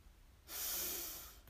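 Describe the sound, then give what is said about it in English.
A single deep breath drawn in, a smooth airy inhale that swells quickly, holds steady for about a second and then tapers off, heard alone against a faint background. “And let's take a deep breath in”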